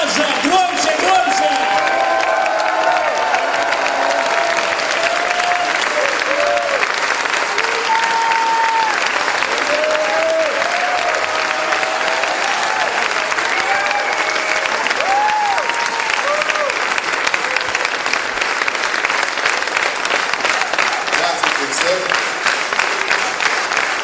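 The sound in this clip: Sustained applause from an audience as a senior pastor is welcomed onto the stage at a church gathering, steady dense clapping that fills the whole stretch without pause.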